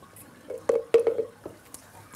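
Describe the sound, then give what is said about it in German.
Gruel flowing through a feeding tube into a seal pup's throat during tube feeding. A few soft, wet gurgles and drips come irregularly over a quiet background. “Der Brei fließt in den Schlund. Und wird geschluckt.”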